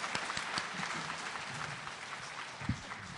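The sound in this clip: An audience claps to welcome a legislator at a forum on saving the Earth. The steady, dense crowd applause runs throughout, with a few louder single claps standing out from the rest.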